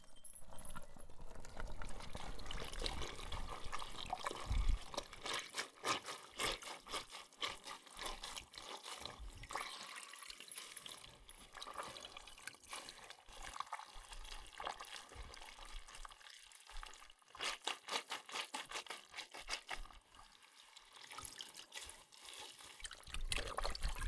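Water rinses shampoo out of hair in a soft, steady trickle and slosh, dotted with small splashes and drips, faint throughout.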